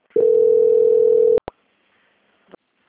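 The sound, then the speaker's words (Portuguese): A telephone line tone sounds during a call transfer: one steady, loud, unbroken tone held for over a second, then stops abruptly. A few short clicks follow in near silence. “Só um momentinho que eu vou transferir aqui, só aguarde em linha.”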